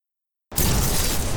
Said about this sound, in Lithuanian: Akindamas klykiančiuosius žaibas trenkia į dešinį lėktuvo sparną. Marija Kiopkė vėl atsisuka į Džilianą ir ramiai tarė. Dabar jau viskas baigta. O tada sprogimas.